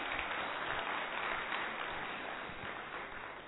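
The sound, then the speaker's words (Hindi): An audience at a spiritual program claps to welcome a speaker, with dense, steady applause that tapers slightly toward the end. “हम सभी करतल ध्वनि से दीपा दीदी का स्वागत करेंगे।”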